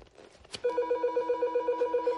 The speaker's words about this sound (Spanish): contesta al telefonillo.